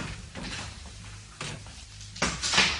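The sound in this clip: A door opening or closing as a sound effect in a radio drama: a few broad, dull bursts over a low background hum, with the last and loudest near the end.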